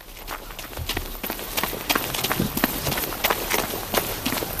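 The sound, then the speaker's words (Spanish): Footsteps of a person jogging: a long run of quick, steady footfalls, moderately loud and alone, with no talk. “Pues me lleva a mi padre trotando y a mi hermano y yo intentando alcanzarle.”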